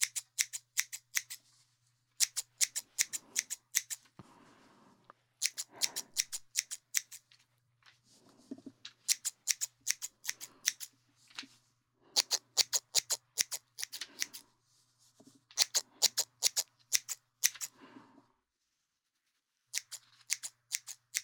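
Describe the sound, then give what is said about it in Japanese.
Scissors cutting hair, with many crisp, rapid snips in bursts separated by short pauses, over a faint low hum. “いっぱい切るから、終わったらさっぱりするぞ。”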